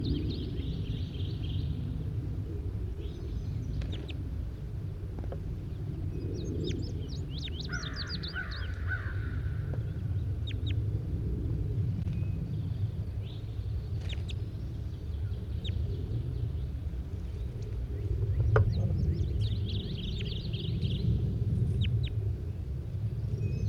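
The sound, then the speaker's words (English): Weak, faint calls from a bird: a few brief, hoarse caw-like notes scattered through a long stretch of steady low background noise. “Very weakly given calls by bird 81.”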